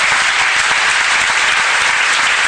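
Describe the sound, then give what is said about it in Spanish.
Applause at a radio station as the audience honours the station's director: dense, steady clapping that stays loud and even for the whole stretch, with no voices rising above it. “Luis de Lía, para quien pido un gran aplauso también.”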